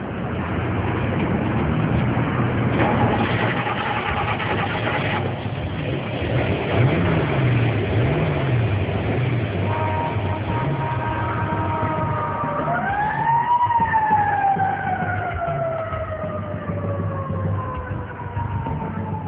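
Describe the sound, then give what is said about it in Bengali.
A police car drives off from a police station with a steady engine rumble under a loud wailing siren that sweeps up and then slowly falls. “Inspector দুর্জয় এবং ASI অভি থানা থেকে বেরিয়ে গাড়িতে উঠলেন। থানা থেকে 10 মিনিটের রাস্তা হয়, বেশি দেরি হলো না সোহেল চৌধুরীর বাসায় পৌঁছতে।”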